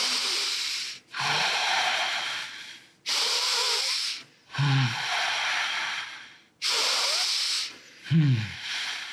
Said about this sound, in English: This is the sound of the oceans. Wow. So we breathe through the nose, basically. And exhale through the nose.